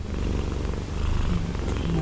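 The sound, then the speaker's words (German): A cat purrs, a low continuous rumbling vibration with a soft, even pulse throughout. “Das Schnurren, allgemein bekannt als Zeichen für Zufriedenheit, bedeutet auch Hunger, Wut und Schmerz bei Katzen.”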